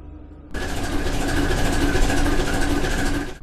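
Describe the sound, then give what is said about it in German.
A sailing ship's engine runs with a dense, steady mechanical drone that starts abruptly and holds even throughout, with a faint constant whine riding above it before it cuts away at the end. “Obwohl die Maschine ein sehr wichtiger Teil von unserem Schiff ist und auch schon eine sehr besondere Rolle während unserer Reise gespielt hat, freue ich mich nie wirklich, wenn sie angeschaltet wird.”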